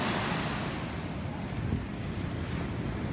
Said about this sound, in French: L'air marin, c'est sympa. Déjà ça. La mer.